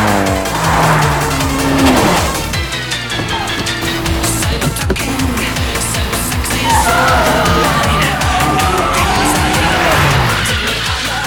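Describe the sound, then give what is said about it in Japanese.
Racing car engines, three cars including an 86, roar into the first corner with tires squealing. Loud, continuous engine drone with screeching skids runs throughout. “来た。第一コーナー3台つながって突っ込んでくるぞ。”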